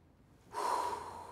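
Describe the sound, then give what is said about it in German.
Deep inhalation during a doctor's breathing check: a single soft, airy breath that starts abruptly and holds steady, then fades slightly toward the end. “Und jetzt mal tief ein- und ausatmen. So ist gut. Nochmal bitte. Einatmen.”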